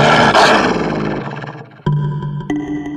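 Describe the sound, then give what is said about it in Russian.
A wolf's furious growl in a dark cave, a loud, rough roaring snarl that slowly fades, followed by two sharp ringing tonal hits. “Во мраке пещеры волчьи глаза горели зеленым огнем. В горле клокотал яростный рык.”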